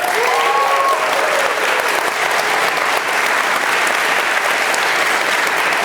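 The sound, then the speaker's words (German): Audience applause, a loud, continuous wash of many hands clapping that holds at a steady level for about six seconds, without talk over it. “Kurz an der Stelle bitte großen Applaus fürs Vox.”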